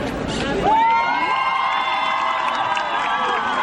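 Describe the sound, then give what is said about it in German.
A group of very young girls chants slogans at a feminist protest, a sustained, high-pitched shouted call rising over crowd noise and held loud and steady to the end. “Hier ist eine Gruppe von ganz jungen Mädchen, die rufen Sexualerziehung,”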